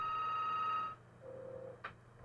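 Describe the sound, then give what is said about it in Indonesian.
Faint electronic telephone ringing on a call-in line: one sustained tone, then shorter, lower beeps. “Kita angkat pesawat telepon dulu deh.”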